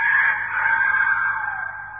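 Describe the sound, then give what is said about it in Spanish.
A rooster crows once, a single loud, drawn-out call with a strained, nasal tone that holds steady before tapering off at the end. “Al primer canto del gallo”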